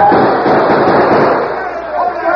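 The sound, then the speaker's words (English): Gunfire crackles through a radio drama battle as cavalry troops open fire on outlaws. Rapid, rattling shots pile into a loud, dense volley, with voices mixed in beneath the shooting. “The army, boys! Open fire on the outlaws!”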